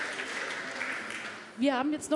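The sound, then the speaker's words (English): Audience applause at a conference on European data protection fades out over about a second and a half, then a voice begins speaking. “applause for Andreas Krisch to Andrena Tangens. Round of applause.”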